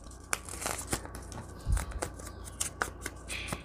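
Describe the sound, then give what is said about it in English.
Paper crinkles and rustles as an envelope is folded and then folded back on itself, giving a few short, faint crackles and scrapes in an irregular rhythm with no talking. “Okay, so let's fold that way. And I think I'm going to fold it back on itself.”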